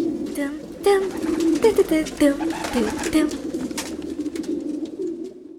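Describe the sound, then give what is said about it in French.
Pigeons at a large pigeon farm coo in a dense, overlapping stream of soft, warbling calls that rise and fall in loudness without pause. “Ils ont un sacré élevage de pigeons.”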